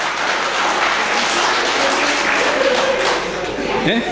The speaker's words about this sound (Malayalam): ഒരു minute sir, അങ്ങനെ കൈയടിക്കരുത്, കാരണം ആ ആശയങ്ങൾ നിങ്ങളുടെ ഹൃദയത്തിൽ കൈയടിക്കട്ടെ.